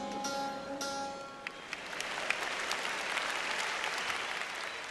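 Sustained plucked-string tones from Ravi Shankar's instruments being tuned at the 1971 Concert for Bangladesh give way to polite applause from the U.S. audience, which swells into a steady, even clatter of clapping.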